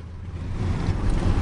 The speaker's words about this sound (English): We're going to turn around and head onto the M11 and see how fast we can go. OK, and see how fast this banger goes.